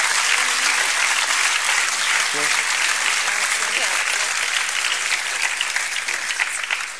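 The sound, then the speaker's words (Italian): Audience applause at a national festival event, offered in thanks to the organising staff: a steady, dense roar of many hands clapping that holds for about seven seconds and eases slightly at the end. “voglio ringraziarle e voglio che voi dedichiate loro il vostro applauso, se siete d'accordo.”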